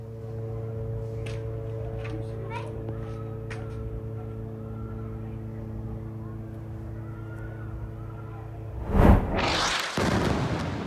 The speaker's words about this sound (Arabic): كما شنت قوات الاحتلال غارة عنيفة كما نتابع على الشاشة مشاهدينا الكرام على منزل في مدينة دير البلح بوسط القطاع، وأظهرت الصور لحظة القصف الذي استهدف المنزل